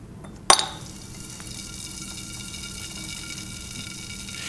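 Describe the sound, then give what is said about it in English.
A piece of marble fizzes and bubbles in a jar as gas rises: one sharp clink as it goes in, then a steady, soft hiss of bubbling that carries on to the end. “if I put that piece into the jar, a great boiling apparently goes on.”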